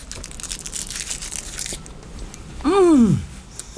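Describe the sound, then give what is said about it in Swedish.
Chocolate is unwrapped and bitten into, with bursts of crinkly wrapper rustling followed by quieter crunching sounds. “Jag måste smaka på chokladen först.”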